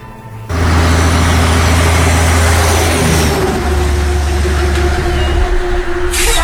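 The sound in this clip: A transport truck engine working hard on the highway routes of El Oro, its loud, steady, low drone starting abruptly and holding throughout.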